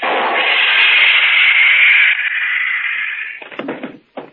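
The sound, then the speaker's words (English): A radio-drama stun gun blast sound effect: a harsh, steady electric buzz that holds for about three seconds, then breaks into a few short crackling bursts before cutting off. “That stun gun blast ought to keep him on ice for a couple of hours. Long enough to get him down to headquarters, anyway.”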